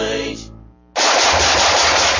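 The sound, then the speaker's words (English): Gunfire: a brief tonal sound fades into a short gap, then a loud, sustained burst of rapid automatic fire runs to the end without letup. “Nice shooting.”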